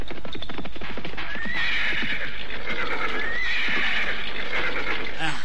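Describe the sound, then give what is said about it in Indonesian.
Horses of an approaching cavalry troop whinny loudly in two long, high neighs, with many hoof clops and stamps underneath throughout. “Sepasukan prajurit berkuda datang mendekatiku.”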